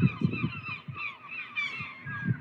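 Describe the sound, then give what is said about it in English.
Seagulls calling in a continuous run of harsh, nasal squawks. Several cries overlap and repeat at a moderate level, with no talking. “You can obviously hear the seagulls.”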